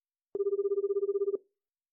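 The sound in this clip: A single ringback burst while a phone call is placed, lasting about one second. It is a steady, rapidly pulsing warble that stops cleanly, with no talk over it.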